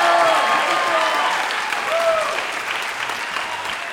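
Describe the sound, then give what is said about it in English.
Audience applause for a stand-up comedian, a dense, steady clapping that starts loud and eases slightly, with a voice speaking over it. “Ladies and gentlemen, big hand for my friend Mike Kaplan.”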